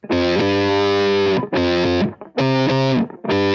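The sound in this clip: Electric guitar with passive humbucker pickups played through distortion: four thick, sustained distorted chords ring out, separated by brief gaps, with no talk.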